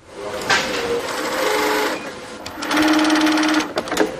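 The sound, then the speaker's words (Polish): Sewing machines whir in a sewing workshop stitching face masks. There are two long stretches of steady, buzzing mechanical running with a brief quieter pause between them, then a few short stops and restarts at the end. “Do tej pory panowała tu zupełna cisza, żadnego dźwięku, a dziś jest pierwszy dzień, kiedy słychać nasze maszyny do szycia.”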